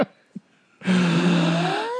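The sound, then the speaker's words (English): A deliberate breath into the microphone comes after a couple of faint short sounds: a loud airy rush with a thin whistling tone that lasts about a second. “Okay, on that note, take a breath.”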